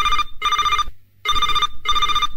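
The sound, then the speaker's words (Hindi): A telephone rings for an incoming call with four bright, buzzy rings in two close pairs separated by a short silence, loud and alone. “चलिए शुरू करते हैं आज का ये कार्यक्रम इस पहली फोन कॉल के साथ।”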